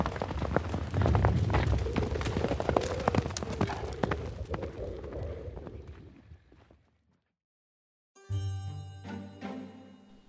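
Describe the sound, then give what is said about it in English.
Galloping horse hooves pound along a road in a fast, steady rhythm, loud at first and fading away over several seconds, then a short silence before music begins. “he climbs atop his horse and gives one curt nod back to you all before taking off at a full gallop. And you all follow suit and do the same and ride off down the road towards the Iron Slopes.”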